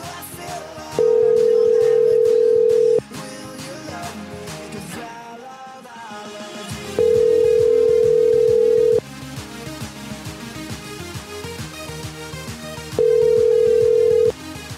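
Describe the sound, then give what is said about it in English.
A ringback tone sounds on an outgoing phone call: three long, steady tones of about two seconds each, evenly spaced by pauses, over continuous background music. “Calling his phone now.”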